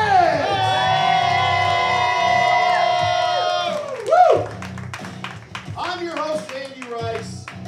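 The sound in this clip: A live studio audience cheers and claps, with loud whooping voices over quick handclaps, then rough shouts and scattered claps as the excitement settles.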